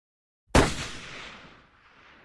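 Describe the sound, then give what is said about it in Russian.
A single gunshot cracks out in deep valleys: a loud, sharp report that rolls and echoes, then fades slowly over a long decaying tail. “Выстрел пророкотал и замолк в глубоких падях.”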